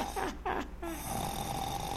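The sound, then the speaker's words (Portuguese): A person snoring: a few rough, raspy snores in quick succession, then a steadier drawn-out rasping breath that carries on, fairly loud and with no talking. “Para de roncar, camarada, que coisa.”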